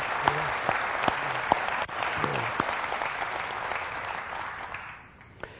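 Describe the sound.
A church audience applauds to congratulate one of its members during a service. The clapping is steady and moderately loud, with a few sharper claps standing out, and it tapers off toward the end.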